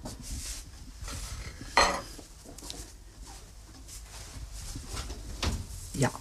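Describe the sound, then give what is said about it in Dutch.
A baking tray being taken out of an open oven by someone wearing oven gloves: one sharp metallic clank early on, then a few softer knocks and rustles over a low, steady background hiss. “De oven open, de handschoenen aan. En nu kom ik met de bakplaat.”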